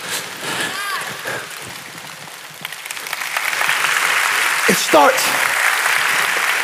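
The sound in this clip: Audience clapping during a church sermon begins under a preacher's voice, then swells louder and denser from about the middle, with a voice crying out briefly near the end as the clapping carries on.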